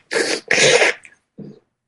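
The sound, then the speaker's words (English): A person's voice imitates a horse snorting: two forceful, breathy blasts of air, then a shorter, softer, lower snort, with no talk around them. “That horse that breathed like this.”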